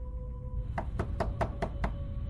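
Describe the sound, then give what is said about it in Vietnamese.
Six evenly spaced, firm knocks on a door, harder than before, rapping in a steady rhythm over a low, sustained droning tone. “Tiếng gõ cửa lại vang lên, và lần này tiếng gõ cửa đã mạnh hơn.”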